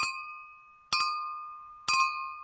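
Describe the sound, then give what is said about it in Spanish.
Champagne glasses clinking in a New Year toast, three bright, ringing clinks spaced evenly about a second apart, each ringing on and fading slowly in otherwise quiet air. “este es recibido con un brindis, přípitek. Como en otras partes del mundo, se suele brindar con una copa de champán, sklenkou šampaňského.”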